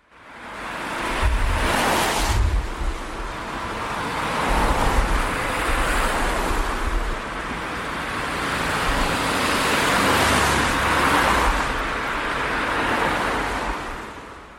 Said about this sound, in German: stattdessen haben wir uns aber kollektiv dafür entschieden, dass unsere Städte so klingen sollten.